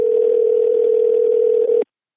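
A telephone dial tone before a call is placed, one steady mid-pitched hum lasting under two seconds that cuts off abruptly into silence, with no voices.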